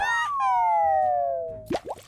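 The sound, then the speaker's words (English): A cartoon-style crash landing into a pond: a long, loud whistle slides steadily down in pitch, then cuts off into two quick, watery plops. “See? That time I definitely meant to crash into the pond.”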